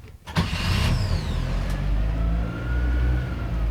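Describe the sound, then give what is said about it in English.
A Toyota car engine revving at full throttle gives a loud, steady low roar with a whining tone that climbs briefly, sustained the whole time with no voices. “And ignition. Gear. Full throttle. Push this Toyota.”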